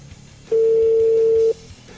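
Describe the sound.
A phone call's ringback tone sounds once as the unanswered call rings toward voicemail: a steady, mid-pitched beep about a second long over faint low background noise.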